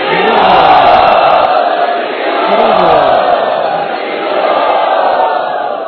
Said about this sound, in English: So I now request all the devotees to welcome His Grace Devamrit Prabhu by very loudly chanting.